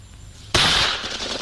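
Gunshot during shooting practice at a target: after a quiet stretch, a single sharp, loud crack bursts out and trails off in a long, rough decaying tail.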